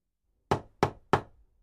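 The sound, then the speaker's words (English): Three sharp knocks on the door of a house, evenly spaced, each a hard hit that quickly dies away, with silence before them. “They knocked on the door of Mr. Hyde's house.”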